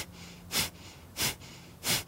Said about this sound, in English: And I was thinking maybe we do Kapalabhati breath here. So inhale and